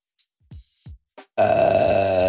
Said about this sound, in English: I said I was going to do a burp in the final ad in the final episode of our season.